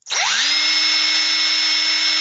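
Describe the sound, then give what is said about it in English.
A power tool runs with a loud, high, steady whine. It spins up sharply at the start and then holds an even pitch throughout, with no talk. “I'm great and I have power tools.”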